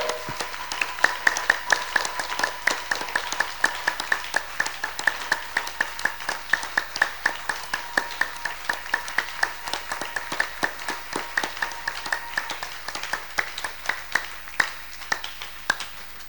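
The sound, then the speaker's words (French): Sustained applause from an audience clapping in praise to the Lord at a bilingual French and English church service, many hands giving dense overlapping claps with a steady, even rhythm, holding at a fairly constant level from start to finish. “Yes, we'll clap for the Lord who has made all of this possible.”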